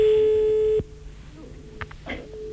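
A telephone line tone as an outgoing call is placed: one steady, fairly loud tone cuts off abruptly under a second in, leaving near quiet with a few faint, brief noises.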